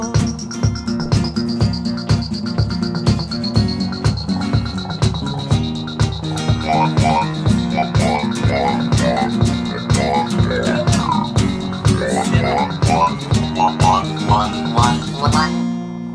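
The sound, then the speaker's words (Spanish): Frog croaks repeat in a steady rhythm through a loud piece of music with tonal notes, running the whole way without speech. “Tremendo ese sapo al final.”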